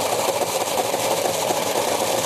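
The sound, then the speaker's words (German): A blender motor purees wild garlic with olive oil, a loud, steady whirring drone that holds at an even pitch throughout with no voices. “Olivenöl habe ich nämlich auch reingemacht. Und jetzt püriere ich nochmal kurz.”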